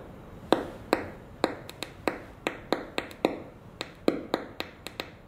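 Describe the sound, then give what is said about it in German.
Single photons strike a detector, each producing a sharp, quiet plop. Many of these short clicks arrive at irregular intervals, with the odd louder one standing out against a faint hiss. “diese Plops, die man hört, das sind die einzelnen Photonen, die auf dem Detektor eintreffen.”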